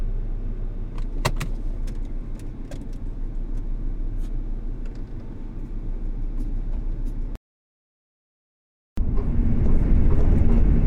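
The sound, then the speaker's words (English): Steady car road noise while driving out of Laramie toward Gillette on a hot day: an even low rumble with a few faint clicks early on, a brief total dropout, then the rumble resumes slightly louder. “So I do what I always do. Drive back to Gillette.”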